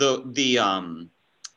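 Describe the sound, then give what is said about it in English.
A single computer mouse click, made while opening a Greek word entry in Bible study software, sounds sharp and brief on its own after a spell of speech and a short pause. “like if I click on this, it's going to tell me what the actual Greek word was.”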